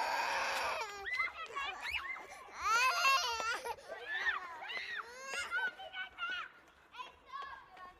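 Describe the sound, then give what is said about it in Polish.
A granddaughter crying: high-pitched, broken sobs and wails in uneven bursts, with wavering pitch that rises and falls throughout, moderately loud. “To chyba pani wnuczka płacze.”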